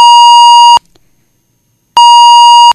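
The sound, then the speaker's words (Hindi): Two telephone-line beeps sound as a phone-in call cuts off: each is a steady mid-pitched electronic tone lasting just under a second, separated by about a second of silence, with no voices. “थोड़ा जिहा telephone line भी दिक्कत दे विच आ रही है, बार बार call जिहड़ी है ओह कट्टी जा रही है”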